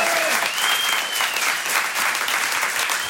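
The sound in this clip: A comedy show audience applauds in a dense, steady wash of clapping, with a brief whistle rising out of the crowd near the start.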